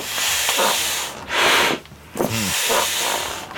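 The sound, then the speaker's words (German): A foot-operated step pump inflating an inflatable pool toy: a few rhythmic, breathy hisses of air with short pauses between strokes, the middle push louder and longer than the others. “Wir pumpen ein Schwimmtier auf.”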